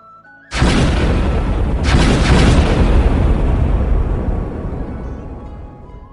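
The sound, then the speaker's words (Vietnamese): Repeated explosions from a fierce battle: a heavy, deep boom, then a second blast about a second later, merging into a loud rumble that slowly fades. “Sau lưng, quyết đấu kinh người, thanh âm nổ tung liên tiếp.”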